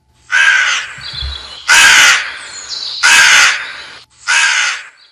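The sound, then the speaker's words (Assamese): A crow caws four times, harsh and loud, with even gaps between the calls and no other sound around them. “সেই গছডালৰ তলৰ ডাল এটাত বহু আগৰে পৰা এজনী কাউৰীয়ে জিৰণি লৈ আছিল”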